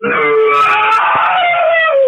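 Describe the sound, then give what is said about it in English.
A person lets out one loud, harsh, industrial-style scream, held steadily for about two seconds and sagging slightly in pitch at the end. “that's a good scream. I like that scream. That was a good one. That was unique. That's industrial scream.”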